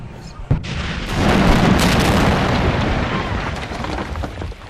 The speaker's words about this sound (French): Un missile R5, je dirais.